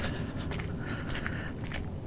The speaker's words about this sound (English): I'm going for a walk by myself, which is something that I have not done in a long time